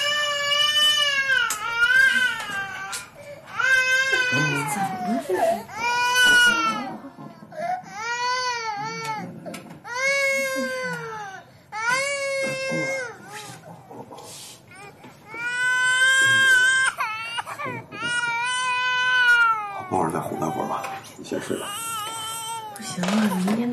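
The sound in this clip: A baby crying after being laid down in a small crib: repeated high-pitched wails in long bursts, loud and insistent, with brief breaks for breath between them throughout.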